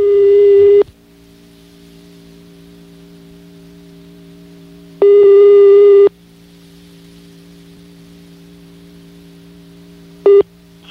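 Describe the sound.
A telephone ringback tone sounds while a call is being placed. Steady, buzzy one-second tones are separated by about four seconds of quiet line hiss, with two full tones and a third cut short at the end.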